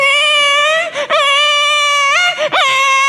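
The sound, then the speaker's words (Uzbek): A baby crying in a loud, sustained, high wail, broken by two brief catches of breath. “Chaqaloq yig'layapti, qarang.”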